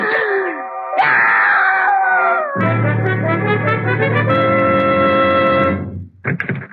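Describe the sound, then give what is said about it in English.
A woman screams and wails in the night after waking in her bed, a high, harmonic cry that slides downward in pitch, then a second cry, followed by a long, loud sustained tonal drone. “I heard a scream.”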